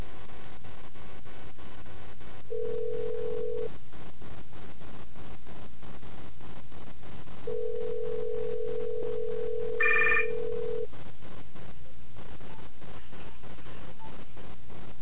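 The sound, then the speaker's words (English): Ringback tones sound while a call is placed to a cell phone: a short steady tone, then a longer one with a brief multi-tone dialing beep inside it. Constant hissing line noise with regular clicks runs underneath. “So what we're going to do is we're going to call my cell phone first.”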